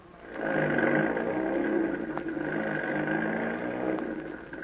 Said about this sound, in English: All right, Tim. Get on that truck. And don't swing that trailer on the curves.